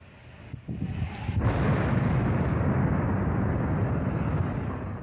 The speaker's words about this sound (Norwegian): Bombebilen som Anders Behring Breivik hadde plassert ved høyblokka, eksploderte klokka 15.25.